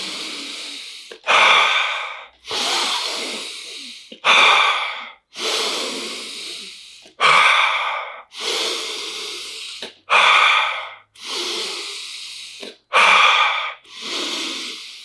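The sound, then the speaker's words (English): Deep, forceful breathing during an ice bath: sharp, loud inhales followed by longer, hissing exhales, repeated in a steady rhythm with short pauses between breaths. “Stay with me. Bigger breath now.”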